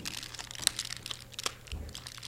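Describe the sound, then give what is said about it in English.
A chewing gum wrapper crinkles as the gum is taken out, giving a quick run of crisp, faint rustles and crackles. “Taking the gum out. Okay. This is gum. I'm chewing the gum now.”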